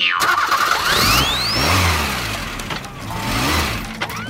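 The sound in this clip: A car engine starts and revs, swelling loudly in surges with its pitch climbing and dipping. A high whistling sweep rises near the start.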